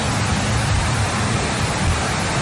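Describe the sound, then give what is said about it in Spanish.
Heavy rain pours down inside a judicial complex in a city, making a dense, unbroken hiss that stays loud throughout with no pauses. “Mire cómo está cayendo la lluvia.”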